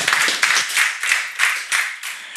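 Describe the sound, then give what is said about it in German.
Audience applause at a talk: steady clapping from a crowd, bright and even with small rhythmic surges, heard on its own without voices. “bitte um einen herzlichen Applaus für Tomster”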